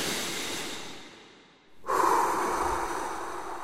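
A deep breath drawn in before stepping onto a stage: a soft airy rush fades almost to silence, then a loud, sharp breathy intake starts abruptly and holds steady.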